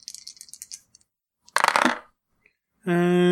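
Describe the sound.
Two ten-sided dice are rolled for a tabletop game, starting with a run of small quick clicks and then a louder clattering burst. A steady tone comes after it.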